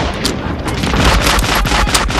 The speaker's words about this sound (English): The Germans reposition the 20 mil and return fire.